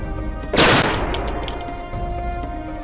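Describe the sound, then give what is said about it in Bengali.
A pistol fired into the air as an audio drama effect: a single loud, sharp crack whose noisy tail fades slowly over a steady background hum. “Inspector অসীম পিস্তলটা নিয়ে হাওয়াতে গুলি চালালো”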